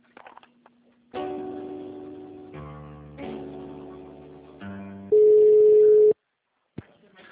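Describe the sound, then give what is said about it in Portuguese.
Telephone line tones play while a call is transferred: several sustained tones in shifting steps, ending in a loud steady beep about a second long, then a sharp click. “Só um minuto enquanto eu transfiro a ligação.”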